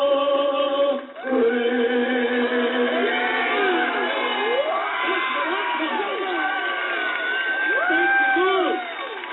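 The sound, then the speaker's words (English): Stadium crowd cheering after the national anthem is sung: many voices roar together with high whoops and whistle-like cries rising above them, loud and sustained, dipping briefly near the start before carrying on. “5,000 people stood up and clapped and put their hands over their hearts.”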